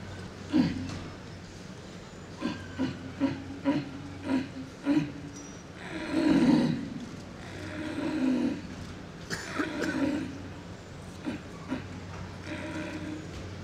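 A person in a calling contest imitates a red deer stag's rutting roar, as a tired, seated stag at the end of the rut. A series of short guttural grunts leads into longer, hoarse, drawn-out roars over a low background.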